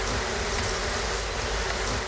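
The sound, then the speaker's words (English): Bees buzz around beehives kept by a beekeeper, a dense, steady hum of many insects that stays loud and unbroken throughout with no voices. “Today, he is happy to be working above ground, keeping bees.”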